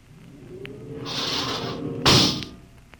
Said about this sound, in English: open the outer airlock.